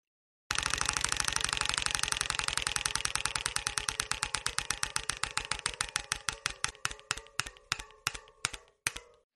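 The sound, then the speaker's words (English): A prize wheel spun during a sports quiz game clicks rapidly and loudly at first. The clicks then slow steadily into widely spaced ticks until the wheel comes to rest. “you ready for me to spin it? Spin that wheel, sir.”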